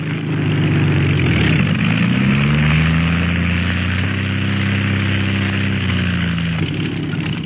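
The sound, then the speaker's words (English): An airplane engine runs after landing: a steady buzzing drone whose low hum slides down in pitch early on, then holds level and continuous throughout. “Look, he's getting ready to land. No wind to worry him either. He's down”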